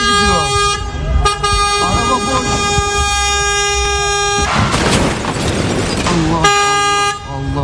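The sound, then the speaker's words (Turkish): Car horns blare as bystanders warn people about a driverless van rolling downhill on a street. Long, loud, sustained blasts break off midway and sound again near the end, with voices of people among the honking. “Çevredekiler bağırarak ve korna çalarak vatandaşları uyardı.”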